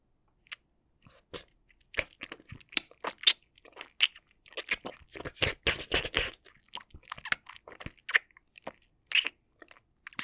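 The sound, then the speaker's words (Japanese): Close-miked ear licking makes wet mouth sounds: many short, quiet smacks and slurps in irregular bursts separated by silence, with no talking. “まずは、お耳を舐めさせていただきます。”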